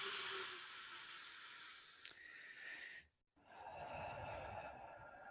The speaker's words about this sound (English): Like, breathe. Okay, cool. I'll breathe. All right.